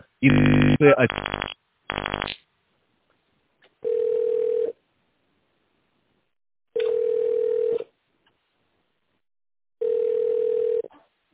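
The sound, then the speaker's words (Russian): Telephone keypad tones dial an extension number as a quick cluster of beeps. Three long, steady ringback tones follow at one even pitch, separated by regular pauses of silence. “Наберите внутренний номер сотрудника.”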